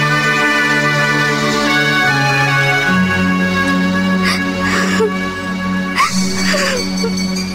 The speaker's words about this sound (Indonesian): Hei, masih juga kau menangis.